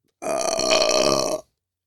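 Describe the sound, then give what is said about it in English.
A single loud, drawn-out burp of just over a second, deep and resonant, heard alone with nothing after it. “I got more burps in me.”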